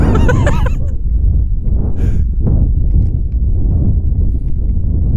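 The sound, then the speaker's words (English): Wind buffeting a microphone outdoors in a village, a loud, continuous low rumble that swells and dips in gusts, with no voices heard. “No, wind! Stop getting angry at wind.”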